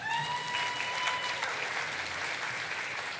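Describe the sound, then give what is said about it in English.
A conference audience gives a standing ovation at a midwifery education technology event, with loud, dense clapping that holds steady from start to finish. “So please give them, even though you've just been standing up, I'd like you to give them a standing ovation.”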